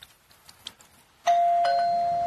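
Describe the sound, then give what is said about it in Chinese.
A doorbell rings at an apartment door, a single clear, sustained electronic tone that starts abruptly after a quiet stretch with faint background sounds and holds steady to the end. “他刚刚洗过澡，门铃就响了。”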